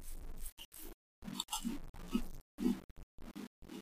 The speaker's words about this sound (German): ich nehme jetzt meinen Teigring hier. Mm, ja. Lecker.